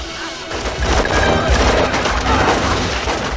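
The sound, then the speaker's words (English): Film shootout gunfire as two groups of gunmen fire at each other: a loud, dense, continuous barrage of overlapping shots and impacts, with no clear gaps between the bursts. “As the cops run, Wah's men and the general's men fire at each other.”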